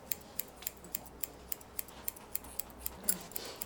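Scissors snip through hair at a hair salon: many quick, crisp metallic clicks in a steady, even rhythm, fairly quiet against a low background hum.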